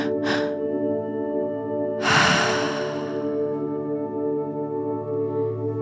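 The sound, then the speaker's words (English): Two breathy rushes of air from a guided breathwork exercise, one short and one longer and fuller, sounding over a sustained, soft musical drone. “Once you feel like you've got it, we're going to start the breath pattern.”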